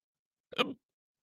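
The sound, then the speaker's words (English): A single short, sharp hiccup from a man suffering a bout of hiccups, heard alone against silence. “I got to wrap it up there. I can't get rid of these hiccups. I apologize for that.”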